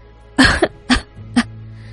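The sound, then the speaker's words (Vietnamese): A few light, short coughs come from a frail young woman, quick breathy bursts separated by brief pauses, with no talking. “Hứa Tạm Ngân ho nhẹ một cái rồi đứng thẳng người dậy”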